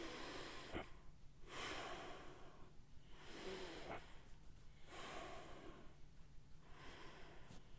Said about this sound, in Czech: dát si sem někam ruce na ten krček a teď dýchat do té horní části hrudníku